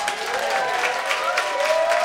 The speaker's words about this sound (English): Give a round of applause for Chelsea.